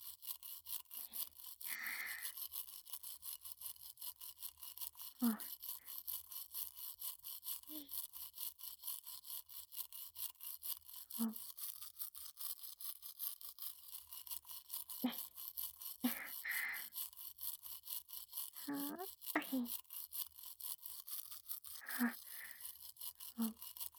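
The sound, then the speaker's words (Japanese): A toothbrush scrubs someone else's teeth in a series of short, faint, irregular scrubbing bursts separated by quiet gaps, with no talking. “お主の歯を磨くのも楽しいものじゃの。”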